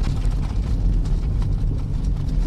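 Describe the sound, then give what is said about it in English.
Steady, loud low rumble with gritty crunching and rattling as a car drives at about 80 km/h over a bad stretch of gravel road near the Arctic Circle. “On a really bad stretch of gravel road.”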